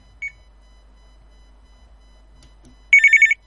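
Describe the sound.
Telephone ringing with an incoming call: a short beep comes early, then a loud, trilling electronic ring with quick pulses sounds near the end, alone without talk.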